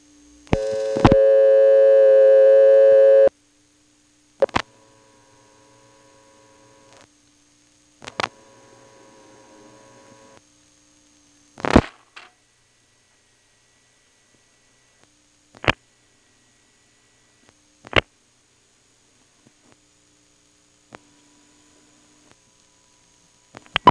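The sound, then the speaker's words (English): Telephone company test line tone: a loud steady tone holds for about three seconds and ends abruptly. Sparse clicks and a faint low hum follow across the rest of the line. “Oh, that was a phone company test line.”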